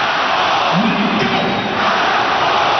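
A loud stadium crowd at Parken Stadium in Copenhagen chants the name of the player who scored the equalizer in a Denmark vs Portugal football match, a dense sustained roar with a rising chanted tone.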